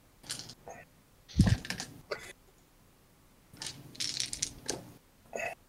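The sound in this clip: Tabletop role-playing dice rattle and clatter on a table in a few scattered bursts of sharp, clicking knocks, with quieter pauses between the rolls.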